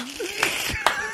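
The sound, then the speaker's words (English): Two sharp hand claps, evenly spaced, cutting across a person talking underneath. “The sound you hear is me clapping to that bit.”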